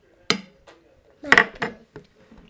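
A metal teaspoon clinks against dishes in a few sharp, bright taps separated by quiet gaps. Two of the taps fall close together near the middle.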